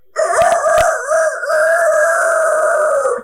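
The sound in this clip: Rooster crowing, one long, loud, sustained crow that holds a steady pitch for roughly three seconds, with no voices over it.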